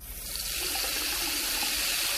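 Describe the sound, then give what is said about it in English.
Water running in a shower and splashing on the shower floor: a dense, continuous hiss of spray holds steady throughout, with no voices. “That's a shower. The bottom of the shower.”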